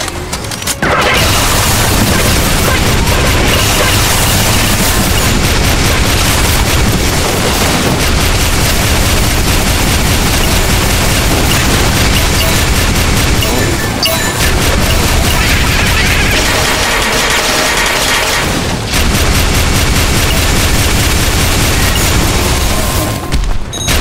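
Rocket missile strike explosions in a video game: loud, continuous rumbling blasts and bursts that run almost without pause, with a few brief dips between barrages.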